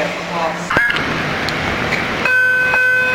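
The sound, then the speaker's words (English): Door-closing warning bell on a Wilshire/Western subway train, bright chime tones sounding over the rumble of the train and settling into a sustained ringing tone near the end. “The bell is the warning that the doors are closing.”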